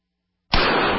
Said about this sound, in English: That's the sound of a .44 Magnum and Traumamax, a high-tech hybrid Kevlar bulletproof vest